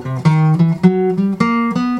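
Plucked guitar notes play a C major 7 arpeggio with half-step approach notes from below, each tone clear and ringing alone as a short, steady run.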